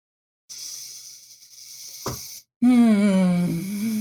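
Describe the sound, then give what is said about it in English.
A loud, drawn-in inhale, a breathy hiss lasting about two seconds, cuts off abruptly and is followed by a voiced, groaning hum. “That was quite the inhale just now.”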